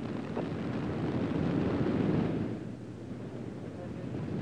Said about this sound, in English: 6, 5, 4, 3, 2, 1. And liftoff of Space Shuttle Columbia on a mission expanding our knowledge and understanding of the human nervous system.